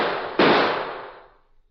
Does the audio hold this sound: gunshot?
yes